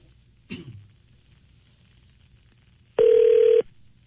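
Telephone call being placed: a short click, then one steady electronic ring tone lasting about half a second, loud against a quiet background.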